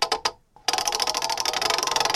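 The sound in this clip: A freshly polished physical prize wheel spun by hand: a few short opening taps, then a rapid, steady run of sharp ticking clicks as it turns, with no talk.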